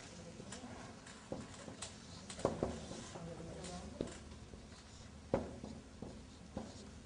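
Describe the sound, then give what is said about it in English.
Writing on a board: faint scratchy strokes with several sharper taps as the marker or chalk meets the surface, irregular in rhythm. “Let me write it down, brother and sister. I'm running out of space, but I'll still write down,”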